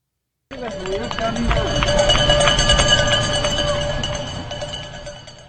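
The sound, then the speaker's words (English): Footsteps crunching through dry leaves in a backyard: repeated rustling, crackling steps that start suddenly and continue steadily at a moderate level. “You can hear me walk through the leaves now in my backyard.”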